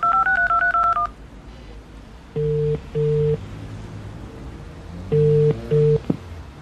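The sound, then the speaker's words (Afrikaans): Telephone keypad dialing tones: four short, loud dual-tone beeps in two pairs, preceded by a brief wavering electronic jingle as the phone switches on. “Hier, net die foon aansit. Boodskap van Auntie Joey. Ek moet haar gou bel om te laat weet.”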